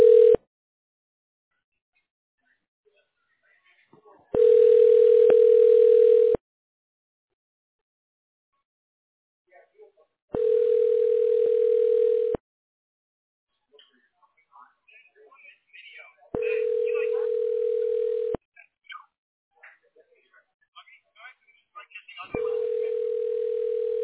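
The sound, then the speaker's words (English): A telephone rings while a call is transferred: a steady, single-pitch tone sounds in bursts of about two seconds, repeating every six seconds or so several times, with near silence and a few faint clicks between. “Sure. One moment while I transfer your call.”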